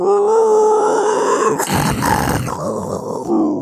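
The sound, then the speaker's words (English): A voice imitates a generic monster growl, an inhaled, snarly and growly rasp that is held for about three and a half seconds, with a rougher, harsher patch midway. “Like that would probably be my monster. That's my go-to, just kind of that inhaley, growly, snarly thing.”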